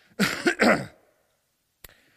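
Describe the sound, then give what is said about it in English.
Two quick, harsh coughs in close succession during an evening scripture reading, followed by silence and one faint brief click. “I'm real sorry about all the coughing tonight.”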